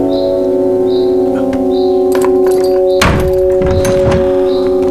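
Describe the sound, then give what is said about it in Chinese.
A guarded cell door being unlocked and opened, heard as a few heavy metallic clunks and rattles around the middle, over a steady sustained tonal drone. “我只是给他送点吃的，把门打开吧。”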